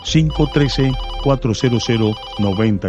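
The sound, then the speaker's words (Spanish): Telephone ringtone signalling an incoming call, heard as a quick run of short, bright melodic tones that repeat in a steady pattern across the whole clip at a fairly loud level. “Ya tengo una nueva comunicación, esta llamada es de Covington. Vamos a agarrar esta llamada.”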